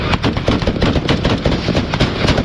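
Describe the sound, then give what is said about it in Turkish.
Gunfire rings out between cars in heavy traffic during a police chase after a fleeing suspect in Mecca, many sharp cracks bursting through a loud, dense, continuous wash of noise. “Kaçan suçlunun peşindeki ekipler araçların arasına gerçek mermilerle ateş açtı.”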